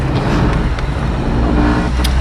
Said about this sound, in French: je me trouve dans la voiture de service